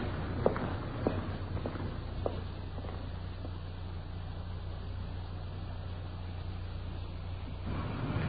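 Footsteps walk up the path to a small English-style cottage with a rose-covered fence. A few soft, spaced steps fall in the first few seconds over a steady low rumble.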